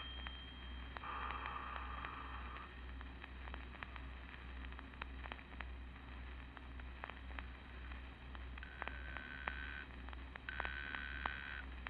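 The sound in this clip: A telephone rings unanswered while a call is traced and stalled: several separate bursts of a buzzing ring sound over a constant low hum and faint static.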